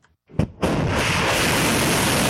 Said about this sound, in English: Iran said these missiles were launched at a US base that, it said, had been used to attack Iranian territory.